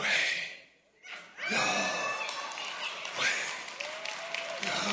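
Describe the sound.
Slow breathing as a preacher demonstrates breath as prayer: a long, airy inhale, a brief silence, then a drawn-out breathy exhale.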